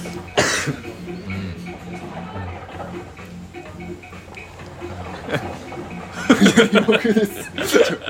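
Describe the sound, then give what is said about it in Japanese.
A coughing and choking fit: one harsh cough burst early, then a cluster of rough, spluttering coughs near the end, with people talking and chuckling throughout. “めっちゃむせるじゃん”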